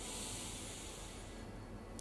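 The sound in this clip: Deep inhalation during a guided meditation: a faint, steady airy hiss lasting the whole moment, over a soft low background tone.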